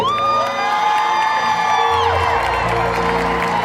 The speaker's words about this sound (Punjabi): ਜੇ ਚੰਗਾ ਲੱਗਾ ਫਿਰ ਤਾੜੀ,